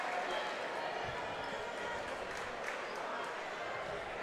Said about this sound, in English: First one up, and it's going to bank off of the rim.